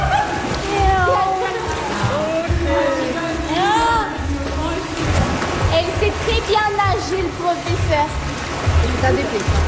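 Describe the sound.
Water sloshes and splashes in a swimming pool during a swimming lesson, a steady, continuous churn under people talking.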